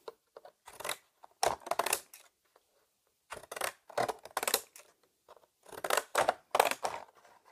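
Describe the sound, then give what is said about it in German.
Contour scissors with a decorative edge cut paper into small labels for handmade cards, giving short bursts of crisp snipping and crunching separated by silent pauses, with no talk. “Als nächstes nehme ich eine Konturenschere und schneide mir hier einmal so kleine Schilder.”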